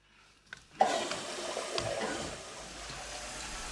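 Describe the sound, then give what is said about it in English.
Water running from a sink tap in a restroom while hands are washed: a small click, then a steady rushing stream that starts abruptly and continues evenly, softening slightly toward the end. “They stand before the two sinks. Charlie washes his hands. Eyeing him, Alan turns off his tap”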